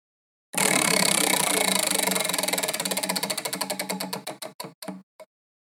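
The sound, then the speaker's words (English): A prize wheel spins and clicks: loud, rapid ratcheting ticks that gradually slow and spread apart before the wheel stops. “And we just thought, let's spin the wheel.”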